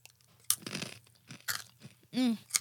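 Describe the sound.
Crunching of salted roasted corn snacks from Bennett, hard kernels like corn nuts, with a few sharp crunches standing out above softer chewing.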